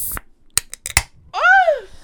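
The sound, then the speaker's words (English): Fingernails being cut with a few sharp, dry clicks in quick succession, followed by a brief voice. “I cut my nails just straight.”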